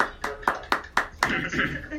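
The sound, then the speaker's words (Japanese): Hand clapping: five crisp, evenly spaced claps in a steady rhythm, then a softer, blurred patter, with people talking. “パチパチパチパチ。”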